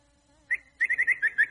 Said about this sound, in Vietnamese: Nghe chim kêu đã không? Dễ thương quá.